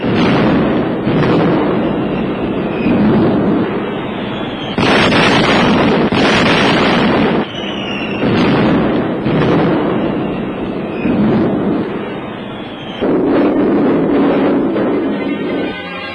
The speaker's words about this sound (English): as the bombers came over in waves, put up a terrific screen of fire as bombs fell all about them.